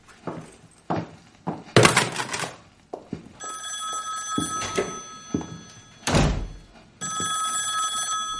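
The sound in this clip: A telephone rings in two long, steady bursts, left unanswered, while a man pours himself a drink; scattered thuds and knocks sound before and between the rings.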